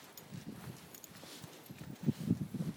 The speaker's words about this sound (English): So we're walking much slower now.